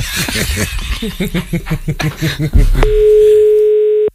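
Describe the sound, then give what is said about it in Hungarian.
Telephone ringback tone on a call nobody picks up: a steady, mid-pitched electronic tone holds for over a second after people talk and laugh. “Nem veszi föl, hívunk más.”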